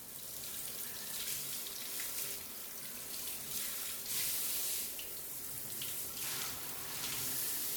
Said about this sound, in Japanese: お腹と泡流しますね。